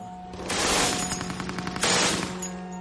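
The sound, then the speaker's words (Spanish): Rapid machine gun fire from a German MG-42 in a World War II D-Day setting. Two loud, fast bursts of closely packed shots follow one another with a short dip between them. “La ametralladora MG-42 era un arma fantástica.”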